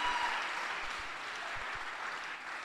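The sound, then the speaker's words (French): Congregation applauding to acclaim the Lord in a church service, a fairly faint, steady wash of many hands clapping that eases slightly toward the end. “Est-ce que vous pouvez acclamer le Seigneur? Par sa force toute puissante.”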